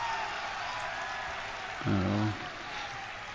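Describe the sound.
A crowd goes wild and applauds at a video game event when Kojima is unlocked, giving a steady roar of cheering and clapping with a brief, louder tonal shout midway.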